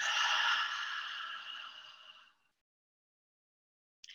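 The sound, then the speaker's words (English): A long, breathy open-mouth exhale during a meditation breathing exercise, a soft airy hiss that fades over about two seconds. Silence follows, and the next breath starts at the very end. “Take a few deep breaths in through your nose. Open mouth exhale.”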